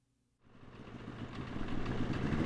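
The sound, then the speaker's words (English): Snowmobile engine riding over slushy, sun-softened snow in Wyoming's Wind River Range. After a brief quiet start, a steady rumbling drone comes in and slowly grows louder, holding on to the end. “The snow turns to mush in the warm sun under our snowmobile tread.”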